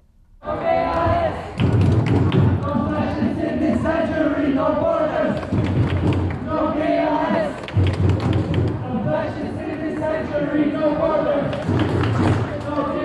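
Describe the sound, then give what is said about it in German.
Crowd at a demonstration against the EU asylum pact: a dense, steady wall of voices shouting and chanting, punctuated by repeated heavy thumps throughout. “Nun hören wir einige Eindrücke, die wir an der Demonstration aufgenommen haben.”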